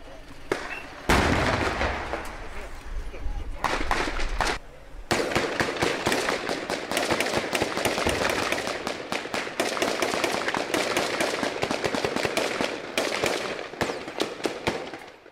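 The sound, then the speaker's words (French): Dense gunfire as two gunmen shoot without stopping at tactical gendarmes, who return fire while the gunmen shelter behind a vehicle. Many sharp cracks come in irregular rapid bursts, loud and nearly continuous, with a brief lull early on. “Les deux terroristes viennent de sortir et tirent sans s'arrêter sur les membres du GIGN. Protégé par un gilet pare-balles, ils restent debout face aux tirs de réplique des gendarmes.”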